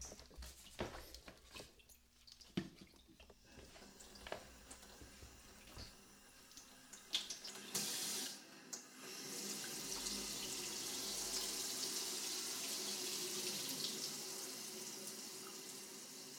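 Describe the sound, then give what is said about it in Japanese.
Water rushes from a shower tap as it is turned on to wet someone's hair. A few light clicks and handling knocks come first, then a loud, steady hiss of running water that continues to the end. “では早速シャワーの栓をひねりまして、”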